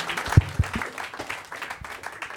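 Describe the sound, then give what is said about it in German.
Applause from a show audience, a short, fairly loud patter of clapping with a couple of sharper claps early on. “A und O vom Showbusiness ist eigentlich den Applaus aufrechterhalten, bis der Mann die Bühne erreicht hat”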